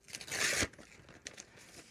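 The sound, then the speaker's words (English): A paper envelope being opened: one short, loud tearing rip followed by a few softer crinkles of paper. “which envelope should I open? One or two? Go with number one.”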